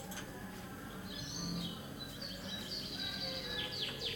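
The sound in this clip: Birds chirping: several thin, high whistled chirps and short trills rise above a steady background hiss, loudest in the second half.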